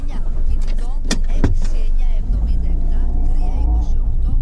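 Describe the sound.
A car driving out of a village, with a loud, steady engine and road rumble throughout, broken by a couple of sharp knocks early on.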